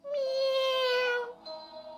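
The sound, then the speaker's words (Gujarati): Cats quarrelling over a piece of bread: a long, loud, drawn-out meow with a bright, steady tone, then a shorter and softer second cry. “બંને બિલાડીઓ તો ઝઘડવા લાગી ત્યાં એક વાંદરો આવ્યો”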